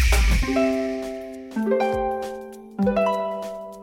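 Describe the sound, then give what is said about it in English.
Harp, a plucked string instrument, playing three arpeggiated chords in turn, each a quick rising run of plucked notes that ring on and slowly fade, loud and alone. “It's called a harp, and it's a string instrument.”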